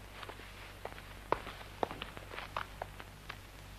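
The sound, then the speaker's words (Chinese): Footsteps of someone walking away at night in a Chinese radio drama, a handful of faint, irregular steps over a low steady hum. “送来送去还不得送到天亮，我走了。”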